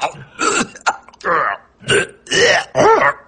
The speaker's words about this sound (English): The time? Throat, I must clear.